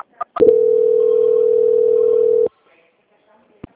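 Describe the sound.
Telephone line tone during a call transfer: a couple of sharp clicks, then a steady mid-pitched tone holding for about two seconds before cutting off, followed by silence and one more faint click.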